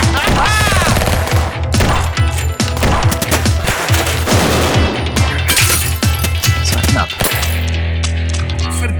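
Machine pistol fire in a German radio drama action scene: loud, rapid, rattling bursts of shots continue through the whole clip over a low rumbling bed.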